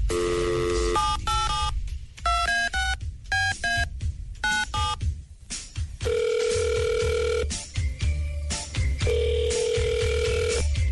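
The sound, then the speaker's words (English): Telephone keypad dialing, with a rapid series of touch-tone beeps in short bursts and pauses, followed by a repeating long electronic ringing tone on the line. Loud and clear, with no talk. “we're going to give Kiana a call right now”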